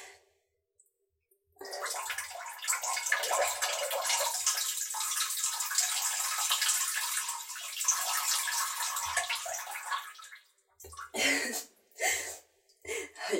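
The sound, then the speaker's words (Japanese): A person urinates into a toilet. A continuous hissing, splashing stream lasts about eight seconds at an even level, then breaks into a few short, irregular spurts and dribbles. “ちょっとおしっこしちゃいたいと思います。音聞こえますかね。ちょっとしていきますね。おしっこ多分すぐ出ちゃうと思います。”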